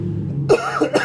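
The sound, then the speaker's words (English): A short, sharp cough in two quick bursts, the second slightly softer, preceded by a faint low murmur. “Excuse you. That was a cough.”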